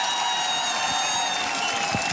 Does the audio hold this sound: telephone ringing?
no